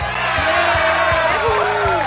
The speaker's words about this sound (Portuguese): Cadê os aplausos pra Titinha, que maravilha? Por favor, né? Cadê os aplausos pro Titio Ramon?